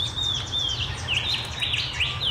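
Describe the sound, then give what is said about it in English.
A shining bronze cuckoo calls with many repeated thin, high whistled notes, fairly faint, over a steady low background rumble. “I think that might be a shining bronze cuckoo. Ah. Because they got lots of different calls. It was that. That's it.”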